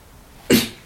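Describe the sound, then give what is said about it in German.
A single short cough bursts out abruptly over a faint, steady background hum and fades quickly. “Das war der Husten, weil jetzt das Husten hat nichts mit der Antwort zu tun.”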